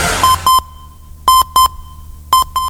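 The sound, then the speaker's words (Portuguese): Short electronic tones sound at one steady high pitch, arriving as three pairs of brief beeps spaced about a second apart. Each pair follows a moment of silence, and a short burst of noise comes before the first pair. “Toque de 3 segundos.”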